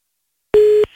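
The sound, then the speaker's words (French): A single steady telephone line tone, heard while dialing a call: one short, loud, even beep on its own, followed by faint line noise. “On va appeler un des numéros que des auditeurs nous ont balancé là.”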